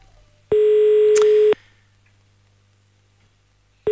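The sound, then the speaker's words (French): Ringing tone on an outgoing telephone call: one steady, loud, even-pitched tone lasting about a second, then silence, with the next ring starting just as the sound ends. “On y va, on appelle directement à Étal.”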